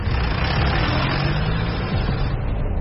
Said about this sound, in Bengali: উঠে বসে গাড়িতে স্টার্ট দিলাম এবং কেউ কিছু বোঝার আগেই বেরিয়ে এলাম সেই মালভূমি ছেড়ে।